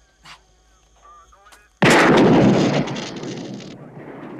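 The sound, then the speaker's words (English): A single loud gunshot fired at a police car radio: one sharp, sudden blast with a long, rumbling decay. It comes after a quiet stretch of faint voices. “Shoot the radio.”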